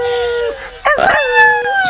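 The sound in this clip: A dog howling sound effect drops into a Latin dance DJ mix: drawn-out, wavering tonal howls that bend in pitch and overlap one another.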